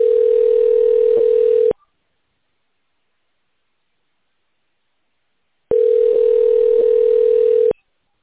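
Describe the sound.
Ringback tone on a telephone line while a call is being transferred: two long, steady single-pitch tones, each close to two seconds, separated by about four seconds of silence.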